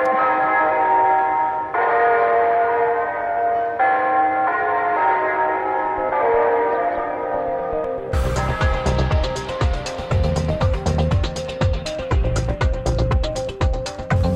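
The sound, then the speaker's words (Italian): Church bells ring in sustained, overlapping tones, then give way midway to louder, rapid clanging strikes that continue to the end with no voices. “le campane ci vogliono, poi speriamo che portino bene”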